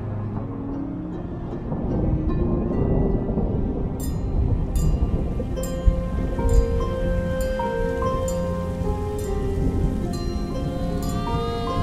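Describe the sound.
Rumbling thunder and steady rain from a night storm: a loud, continuous wash of rain with deep rolling rumbles, and bright ringing strikes recurring through the second half.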